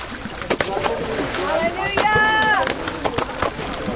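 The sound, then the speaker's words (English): Bottles of rice and other goods are thrown into a river at low tide to float toward North Korea, making several short splashes and some sloshing, with a voice talking over them. “they're throwing the bottles of rice and other goods into the water, and you're starting to see them flow down the current towards North Korea.”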